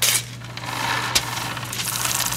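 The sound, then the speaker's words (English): A voting machine prints a long paper receipt tape of candidate vote totals at the end of election night, a steady buzzing mechanical whir over a low hum, with one brief click partway through. “At the end of election night, the machine spits out a paper receipt showing the total votes recorded for each candidate.”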